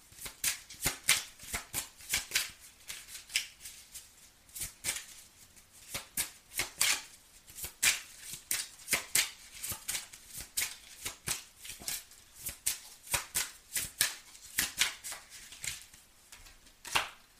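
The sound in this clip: Playing cards being shuffled and dealt make many crisp riffling and slapping bursts in a steady, fairly regular rhythm. The bursts are faint and heard alone.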